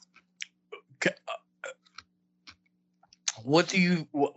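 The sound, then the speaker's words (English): Small wet clicks from someone chewing a mint, a quick scattered series of soft mouth sounds spread across several seconds, ending when a person starts talking. “I'm going to keep chewing on this mint for a minute.”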